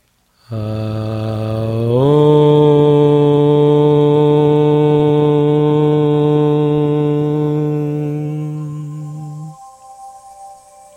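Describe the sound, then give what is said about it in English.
A group chants the hymn of the universe together once to close a meditation: a single long, steady, resonant tone that steps slightly up in pitch early on, holds for several seconds, then fades into quiet. “And now let's seal this meditation by chanting the hymn of the universe together one time.”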